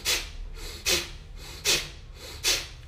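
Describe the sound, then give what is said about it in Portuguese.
Strong deep breaths from a breathing exercise. Four forceful, rushing breaths come at an even pace, each swelling loudly and then easing off before the next. “Faz fortes respirações, tá?”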